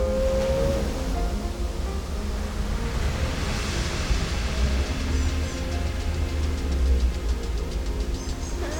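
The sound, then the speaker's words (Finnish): Water splashing against stones and washing over a shallow sandy bottom on a windy shore. A steady, continuous wash of noise with no distinct loud splashes standing out. “Vesi pitää ääntä. Se räiskii kiviä vasten ja se liukuu pehmeästi pitkin matalaa hiekkapohjaa. Se loiskuu, se laahaa,”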